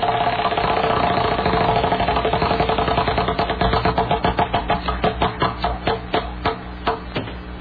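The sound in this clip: A spinning prize wheel played on a computer gives a loud, rapid ticking that first blurs into a continuous whir, then slows into distinct clicks spaced further and further apart.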